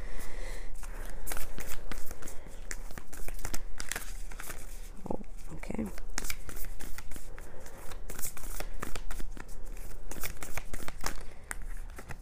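Starseed Oracle cards by Rebecca Campbell are shuffled in a steady stream of crisp, crinkly riffling and soft slaps that runs without pause for many seconds, with no talk.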